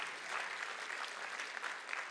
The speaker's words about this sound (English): would you give him a big round of applause?